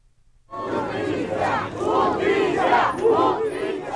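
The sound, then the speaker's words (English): Protesters in Mexico chant for justice after a deadly fire at a migrant processing center in Ciudad Juárez. A loud crowd chant starts abruptly after a short silence and swells in repeated, rolling phrases. “That was the sound of protesters in Mexico today calling for justice and also for changes after a deadly fire swept through a migrant processing center in Ciudad Juarez”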